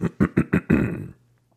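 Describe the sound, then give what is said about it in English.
A man clears his throat in four short rasping bursts and one longer final push, followed by near silence with a faint low hum. “He just cleared his throat.”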